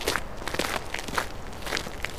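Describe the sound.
Footsteps walk toward a cave by a river, a steady series of soft, evenly spaced treads at moderate volume with no voices.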